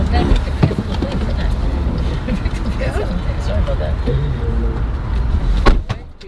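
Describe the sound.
A rideshare car's door swinging open by itself, with a couple of clunks near the end beneath people talking throughout.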